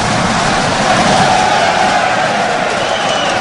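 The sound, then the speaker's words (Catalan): A football crowd stamps its feet on the metal stands at Montilivi stadium, producing a loud, continuous rumble of banging and crowd noise that stays steady throughout without distinct separate beats. “I el públic pica amb els peus sobre la superfície metàl·lica, cosa que jo els demanaria que no fessin.”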